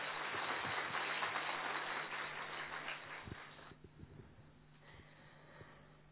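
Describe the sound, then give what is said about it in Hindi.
Audience applause welcoming a speaker at a spiritual gathering, a dense wash of clapping that holds for a few seconds, then thins and fades out, leaving scattered faint claps and near quiet. “पहले हम प्यार से तालियों के साथ अभिनंदन करते हुए,”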